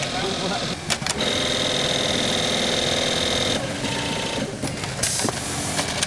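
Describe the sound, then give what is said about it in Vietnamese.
Sewing machines whir continuously on a garment factory production line, a dense mechanical buzz with a steady high whine, while a voice speaks over the noise. “Vải sau khi được đo, cắt theo kích thước đã định sẽ được chuyển về các dây chuyền để may từng bộ phận của sản phẩm.”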